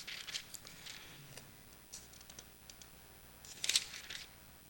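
Quick rustling of Bible pages turned in haste: a few soft, papery swishes and flicks in short bursts, with a brighter crinkle near the end and no voices.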